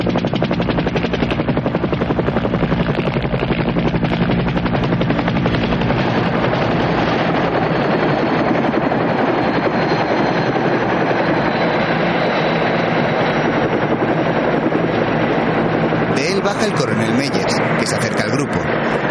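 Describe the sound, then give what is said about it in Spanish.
Helicopter approaching, descending and landing on a hill in a war film: loud, dense rotor chop and engine roar holding steady throughout. “la conversación se ve interrumpida por un helicóptero que se acerca a la colina. Desciende sobre ella y aterriza.”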